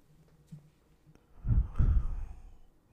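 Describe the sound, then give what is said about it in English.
A deep drag on a Juul vape: a soft breathy pull, then a longer, louder airy inhale and exhale that trails off into quiet. “take a little hit off this Juul bot. Oh yeah. It's a good nicotine.”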